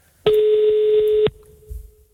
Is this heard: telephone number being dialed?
yes